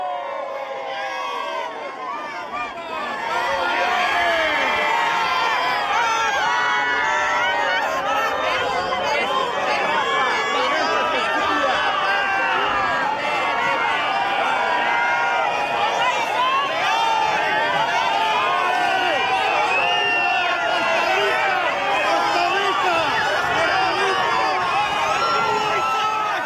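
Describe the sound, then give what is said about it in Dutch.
Large crowd in St Peter's Square cheering and chattering to greet the Pope as he crosses the square in the popemobile. A quieter murmur opens, then a loud, sustained roar of mixed voices and shouts follows. “We kunnen het horen, beste luisteraars, er is weer zeer veel volk verzameld op het Sint-Pietersplein om de Heilige Vader te begroeten en te kunnen aanhoren.”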